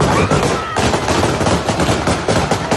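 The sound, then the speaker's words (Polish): Gunfire shot into the air by the Taliban to disperse a demonstration in Kabul: a loud, dense crackle of many rapid shots running continuously with no clear pauses. “Wczoraj taką manifestację w Kabulu talibowie rozpędzili strzelaniem w powietrze.”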